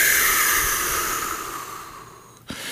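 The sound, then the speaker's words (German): A deep breath exhaled slowly: a steady, airy hiss of breath that fades gradually over about two seconds, followed by a brief soft burst of air at the end, with no voices. “nimm einfach mal einen tiefen Atemzug und atme lang aus.”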